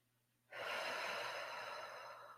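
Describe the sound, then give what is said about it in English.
A deep exhaling breath during guided meditation begins abruptly after a brief quiet moment and then flows as a long, airy whoosh that fades only slightly toward the end. “And exhale.”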